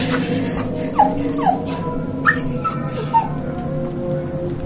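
A dog whimpers in about four short, high whines that slide downward in pitch, over a steady low hum.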